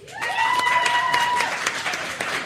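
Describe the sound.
Audience applause at a live comedy show, where the crowd claps to vote on a question; dense, steady clapping fills the short clip at a fairly loud, even level.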